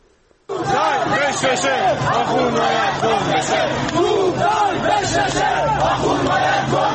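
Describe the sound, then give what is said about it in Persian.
A crowd of protesters in Qom chants anti-government slogans. After a brief quiet start, loud massed voices burst in and keep up a rhythmic chant to the end. “این صدای مردم معترض در قم هست که شعارهای ضد حکومتی”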